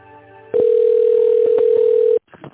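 A telephone ringback tone plays while a call is transferred to another department. It is one long, steady, mid-pitched tone lasting over a second and a half, then cutting off abruptly, followed by faint line noise.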